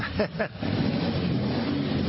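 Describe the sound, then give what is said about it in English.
Motorcycle engines of bikers riding around the White House South Lawn make a steady, low rumbling drone that holds evenly after a brief voice at the start. “He then instructed the bikers to start their engines and drive around the South Lawn.”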